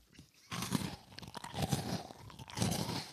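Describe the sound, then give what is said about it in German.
Crunching and chewing of Prinzenrolle chocolate biscuits. After a brief silence, many loud, crisp bites and chews follow in an uneven rhythm, with no talk. “Ich mag eigentlich keine Prinzenrollen, aber für den hm. Soundeffekt.”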